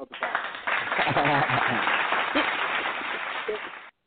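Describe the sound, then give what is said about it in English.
A clapping sound effect played on a talk radio call-in show: a dense burst of many claps lasting about four seconds, heard under a speaking voice, with a muffled, narrow, phone-like tone that cuts off abruptly at the end. “I got to throw some claps on it for you.”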